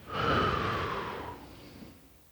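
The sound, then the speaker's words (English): A deep breath drawn and let out: one long, airy rush of air that swells quickly, holds, then slowly fades away, heard alone without any talk. “Take the deepest breath you can. Inhale. Now exhale.”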